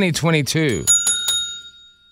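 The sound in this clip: A small hand bell rings three quick bright strikes whose tones hang and fade, coming just after a short burst of voice.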